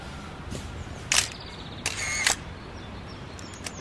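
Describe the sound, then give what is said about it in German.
A few sharp clicks of a camera shutter as photos are taken outdoors in front of a house, brief mechanical snaps standing out from a low, steady background hiss. “Ich mache ein paar Fotos.”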